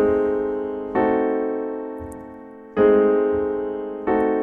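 Piano playing two voicings of a C diminished chord with the top note A doubled an octave lower. Four chords are struck alone, each ringing out and slowly decaying before the next.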